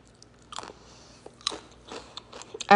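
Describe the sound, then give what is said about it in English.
Biting and chewing of grapefruit: several crisp, wet crunches spaced out irregularly, each a short burst, with quiet pauses between and no talk. “I don't even like listening to myself eat”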